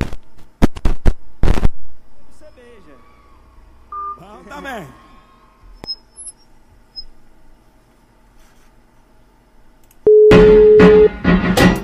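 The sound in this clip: A steady telephone line tone as a radio host places a call to a listener, sounding once near the end as a loud, even hum lasting about a second, after scattered clicks and handling noises.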